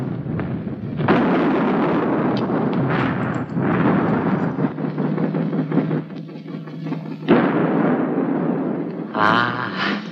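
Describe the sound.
Naval rapid-fire guns firing in a film battle scene, with many heavy booming blasts in quick succession over a dense, continuous rumble that barely lets up.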